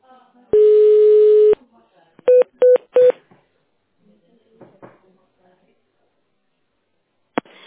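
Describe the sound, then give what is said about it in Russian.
A telephone call is being transferred, with a ringing tone. A long steady tone sounds for about a second, then three short beeps follow in quick succession, and then there is near quiet with faint scattered sounds. “Здравствуйте. Ваш звонок будет направлен на вашего персонального менеджера.”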